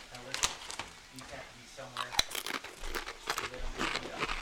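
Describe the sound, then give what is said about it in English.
A bag of Doritos chips crinkles and rustles in a few short bursts, a sharp crackle among them, beneath people talking. “I want Doritos. Bring me that bag.”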